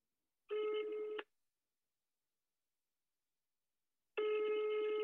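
Telephone ringback tone as a call is placed: a steady buzzing ring lasting under a second, a long silence, then a second ring that is cut off at the end.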